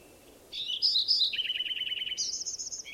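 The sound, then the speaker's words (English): Bird song after a brief quiet moment: a few high, bright phrases of sweeping chirps, then a rapid run of repeated notes, then a faster high trill, all clear and fairly loud. “First bird I recorded is also singing.”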